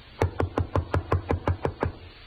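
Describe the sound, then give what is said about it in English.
Knocking on a door: a quick, evenly spaced run of sharp knocks, all about equally loud, with no voices. “Oh, go ahead. Knock again.”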